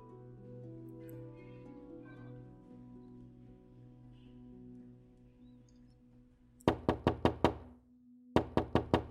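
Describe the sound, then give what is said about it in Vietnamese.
Knocking on a door: five sharp, loud raps in quick succession, a brief pause, then four more, breaking in after a low, sustained musical drone. “Tiếng gõ cửa vang lên một lúc”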